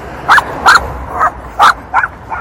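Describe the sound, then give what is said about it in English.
A dog barks in several sharp, evenly spaced bursts, each short and loud, with a slightly shrill, yappy edge over a low background hum. “There's a dog.”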